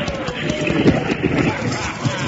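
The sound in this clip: Galloping stagecoach horses pound along in rapid, uneven hoofbeats during a holdup, with men's voices shouting over the steady clatter.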